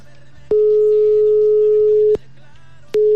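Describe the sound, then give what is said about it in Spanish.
A steady mid-pitched phone line tone follows a dropped call. It sounds in one long unbroken burst, stops briefly, then comes back near the end, with a faint low hum underneath. “Ok, creo que se perdió la llamada.”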